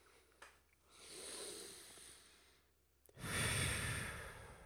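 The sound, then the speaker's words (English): A deep diaphragmatic breath: a long, airy inhale of about two seconds, a brief pause, then a louder, rushing exhale, with no talking. “Just breathe that shit in. Let's all just take a nice diaphragmic breath.”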